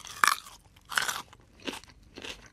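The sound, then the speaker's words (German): Four crisp crunches as someone bites into a raw carrot, each a bright, brittle crack spaced evenly apart and heard alone without any talk. “Zwar nicht ganz klar wieso, aber fast immer, wenn ich ein raues Rüebli esse”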